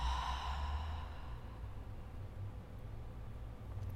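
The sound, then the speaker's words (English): A slow, deep breath in and out closes a guided meditation practice, a soft airy rush that fades gradually over a low, steady hum. “Let's finish with a breath here, an inhale in, and an exhale, let it go.”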